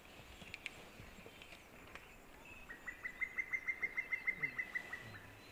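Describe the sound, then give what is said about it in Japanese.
An Oriental cuckoo gives its unusual excited call, a fast, evenly spaced run of many short, high notes that grows slightly louder. A few softer chirps come earlier over faint background hiss. “多分、ツツドリが興奮した時なんだか、なんだかわかんないですけど、鳴き声ですね。 普通の鳴き声と違いますね。”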